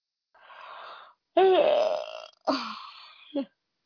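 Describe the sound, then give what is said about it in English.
A big human yawn: a breathy intake, then a long, drawn-out voiced groan and a shorter second groan, ending in a brief vocal catch. “That was a big yawn.”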